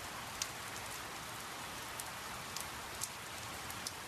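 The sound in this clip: Rain pouring down outdoors as a steady, dense hiss with no letup, with a few faint, sharper drop ticks scattered through it.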